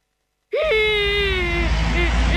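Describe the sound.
A voice imitates a lost cartoon waste battery crying: one long, wailing cry that wobbles briefly at the start, then holds a steady, slowly falling tone, followed by a short sob near the end.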